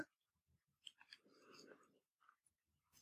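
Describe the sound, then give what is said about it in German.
Crunchy biscuit base of a layered, cheesecake-like dessert being chewed, a few faint crisp bites with soft breathing and a low murmured hum between them. “Hm, typischer, knuspriger Keksboden. Ah, das mache ich ja gerne. Hm. Jetzt probiere ich das oben, das Weiße.”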